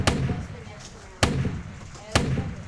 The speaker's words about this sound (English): Got him! You just shot that man!